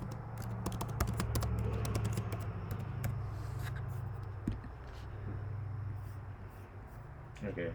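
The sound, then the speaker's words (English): Someone types a search into YouTube on a computer keyboard: a quick burst of key taps early on thins into sparse clicks, with voices talking underneath. “can you go on YouTube and type in Bobby Fish uh, top moves or something like that?”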